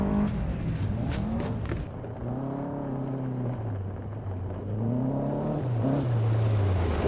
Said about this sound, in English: You couldn't have gone with a vehicle with the heater? Oh, come on. The buggy's the best thing for all terrain.